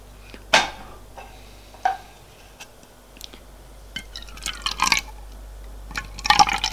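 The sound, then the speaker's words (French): A drink poured from a bottle into two glasses: a few sharp glassy clinks, then short bursts of trickling liquid toward the end. Fairly faint, with no talk. “Elle revient avec un verre, avec deux verres et la bouteille. Fait le service.”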